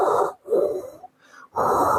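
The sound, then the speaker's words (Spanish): Heavy, rasping breathing from people outside searching for an antenna. Four breaths follow one another: three loud, hissing ones and a fainter, softer one between them, with no talk. “lo que se escucha es ellos respirando así”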